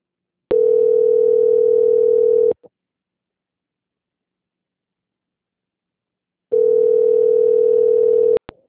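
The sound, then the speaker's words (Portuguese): A steady single-pitch telephone line tone sounds during a call transfer, heard as two loud, even bursts of about two seconds each, separated by several seconds of silence. “peço que a senhora aguarde em linha, pois eu vou transferir para o controle de qualidade, que dará continuidade à sua contratação”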